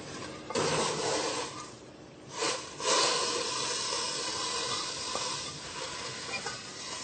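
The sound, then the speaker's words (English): Water coming to a boil in a pot with onion and cauliflower, a steady hissing, bubbling wash of sound with a few louder surges and no voices. “The water sounds like it's boiling. Just about is, so close enough.”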